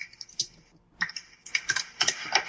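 Typing on a computer keyboard: many quick, crisp keystroke clicks in irregular bursts, with a brief lull partway through and no voices.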